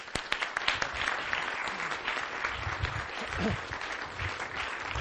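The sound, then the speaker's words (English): An audience applauds a Tufts University speaker after his talk on practical idealism. The clapping is loud, dense and continuous, with sharp individual claps standing out in the steady wash. “Could we, before we do that, I'd like to have us put our hands together for John Hammack”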